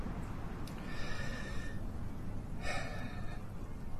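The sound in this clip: A distressed person takes deep breaths to compose themselves: two quiet, airy inhalations separated by a pause, faint against a steady background hiss.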